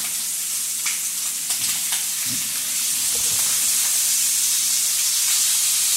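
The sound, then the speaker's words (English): Lamb chops sizzling in a frying pan: a steady, bright hiss of hot fat with a few faint crackles scattered through it. “Cooking is going to help you with the tenderizing. All right, so I would say it's almost time to flip our little lamb.”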